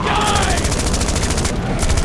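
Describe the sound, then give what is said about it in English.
Rapid rifle gunfire in a dense, sustained burst, with steady loud cracks repeating in an even rhythm throughout, with no gaps between shots. “Don't use up all the ammo, you knucklehead! Shoot him a couple of times!”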